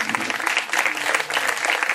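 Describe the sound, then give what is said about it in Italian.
Audience applause: many hands clap in a dense, continuous patter at fairly even loudness throughout, with no single voice standing out. “Grazie, un bel applauso”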